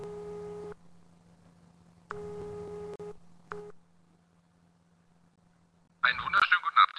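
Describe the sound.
A video call app's ringing tone sounds as a few plain electronic beeps of uneven length, separated by quiet pauses over a faint low hum, before a voice breaks in at the end.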